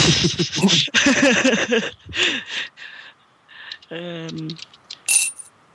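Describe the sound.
Five-euro coins drop with a few bright, metallic clinks after a stretch of people talking.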